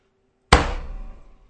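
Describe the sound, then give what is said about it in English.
A knockout punch lands on a man: one heavy, sharp thud after near silence, then a short ringing decay that fades within a second. “My God, you knocked him out.”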